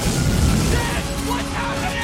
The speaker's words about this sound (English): As the back of the shuttle is blown up, a guard drops his gun and it fires shells all around the cabin. Wires short circuit and flames rip through the ceiling.